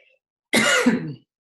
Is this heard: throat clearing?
yes

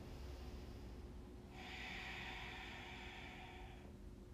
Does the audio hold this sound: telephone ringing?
no

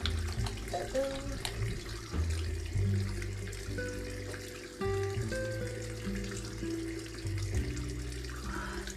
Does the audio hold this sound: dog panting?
no

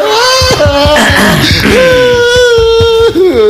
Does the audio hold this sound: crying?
yes

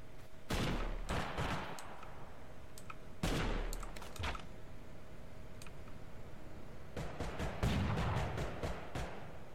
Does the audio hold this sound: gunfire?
yes

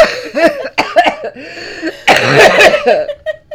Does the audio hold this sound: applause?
no

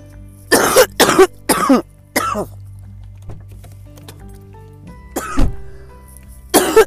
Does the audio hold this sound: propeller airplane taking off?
no

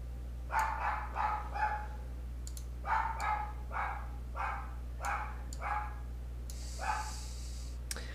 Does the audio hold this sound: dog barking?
yes

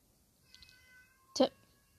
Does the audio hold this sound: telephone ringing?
no

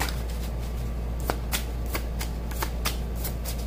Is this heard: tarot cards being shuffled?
yes

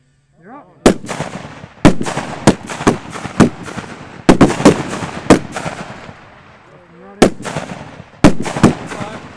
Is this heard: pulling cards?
no

